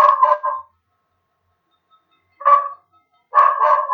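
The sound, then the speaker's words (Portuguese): A dog barks a few short, mid-pitched times, with silent gaps between the barks. No one talks. “O cachorro falando aqui.”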